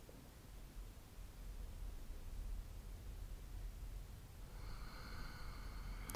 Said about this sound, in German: Letzter Atemzug hier.